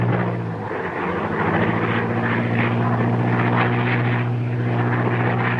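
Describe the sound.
A light propeller plane with a sputtering engine drones loudly and continuously, a low humming tone with a slight wavering. No voices are heard.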